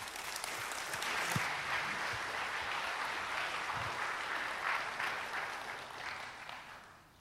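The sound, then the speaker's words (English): An audience applauds to welcome a speaker onstage with dense, steady clapping that holds throughout and tapers off at the very end. “So would you please give a warm Kesed welcome”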